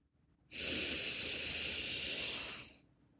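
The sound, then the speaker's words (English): A long, deep breath during a guided relaxation and affirmation session: a single loud, airy hiss that holds steady for a little over two seconds and then tapers off, with no talking. “just take a deep breath in.”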